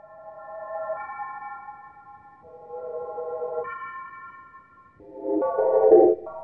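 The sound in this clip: Electronic music built from layered pure sine tones by additive synthesis, an early Cologne studio study. Stacked steady tones shift in stepwise blocks of chords, ending in a denser, rougher cluster.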